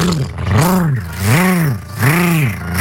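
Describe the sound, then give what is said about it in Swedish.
A voice imitating a lawnmower engine, a loud buzzing vocal drone that swells and sags in repeated surges, like an engine labouring and recovering. “Nu ska jag ge mig i kast med att härma min gräsklippare.”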